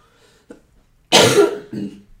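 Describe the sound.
A person coughs: a faint throat sound, then one loud, harsh cough and a softer follow-up.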